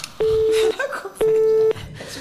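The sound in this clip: Telephone line tones: two steady, identical mid-pitched beeps, each about half a second long and separated by a half-second pause, loud over faint background noise.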